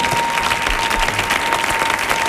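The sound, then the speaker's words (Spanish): Audience applause for a Cuban música campesina singer and décima improviser, a dense, even wash of clapping that holds steady the whole way through with no breaks. “¿Y no le vaya a dar un aplauso a este hombre?”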